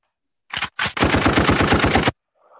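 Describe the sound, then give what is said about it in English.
Rapid gunfire during a game: two short bursts followed by a sustained automatic rattle of many fast shots, loud and sharp, ending abruptly before a faint sound. “Oh, whoa. Did you just shoot us?”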